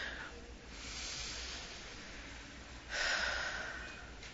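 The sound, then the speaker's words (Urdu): A deep breath is drawn in, a soft airy hiss over a steady noisy background that swells louder and brighter toward the end. “الحمد للہ ایک گہرا سانس لیں”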